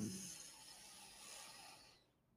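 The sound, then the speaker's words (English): A deep inhale through the nose makes a soft, steady hiss of air for about two seconds before it stops, leaving near silence. “Tap into that breath, take a deep inhale, and I can lead you through it. Let's just do it right now. Take an inhale through your nose.”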